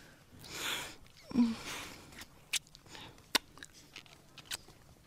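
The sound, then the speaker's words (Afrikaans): Kissing: a few moist smacks and sharp lip clicks mixed with soft breaths and rustling, quiet overall with short louder pops scattered through. “Jy soen lekker. Dit vat twee vir 'n goeie soen.”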